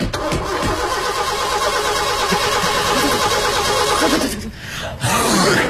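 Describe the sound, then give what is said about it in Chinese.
A car engine starts and runs with a loud, steady mid-pitched roar, dropping away briefly near the end before surging back up. “开车开车， 快开车呀！”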